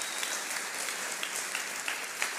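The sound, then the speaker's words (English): Church audience clapping hands to welcome first-time visitors: a continuous, dense patter of applause from many people, even in level, with a few sharper claps standing out. “let's put our hands together and welcome anybody that came for the first time”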